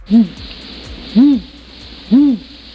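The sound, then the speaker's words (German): An eagle owl sound effect gives three loud, low hoots, each a short arched note, spaced about a second apart with quiet between them. “Was ist das denn? Sollte ein Uhu sein, aber ich glaube, das ist ein Uhu kurz vorm Niesen.”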